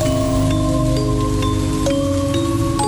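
Fairly heavy drizzle of rain falling as a steady, loud, even hiss that runs unbroken throughout, with faint steady tones in the background.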